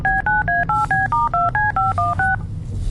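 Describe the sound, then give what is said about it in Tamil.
Touch-tone keypad beeps as a phone number is dialed to make a call: a quick, even run of many short two-tone bleeps over a low background hum, which continues alone after the dialing stops. “Ma'am அங்க உள்ள teachers கிட்ட கால் பண்ணி கேளுங்க ma'am. Okay okay, கால் பண்றேன்.”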